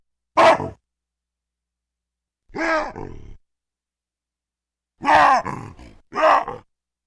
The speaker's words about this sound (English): let's hear a sequence of three different baboons doing wahoos.